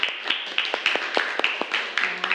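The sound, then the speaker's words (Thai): Scattered clapping from a classroom as students applaud a classmate, many uneven, fairly faint claps spread across the moment, with a faint steady tone behind them. “โอเคค่ะอ่ะปรบมือเพื่อนหน่อยค่ะนะ”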